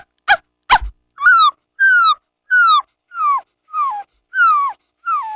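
A person imitates a puppy in a school mimicry performance: two short, sharp yips followed by seven high, whining whimpers, each sliding downward in pitch, evenly spaced with brief silences between.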